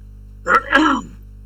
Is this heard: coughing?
yes